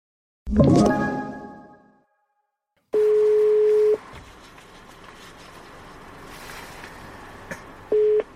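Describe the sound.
An outgoing phone call's ringback tone: a steady single-pitched tone sounds for about one second, then a long gap of faint line hiss, then a second tone begins at the end. A decaying burst of noise comes before the first tone.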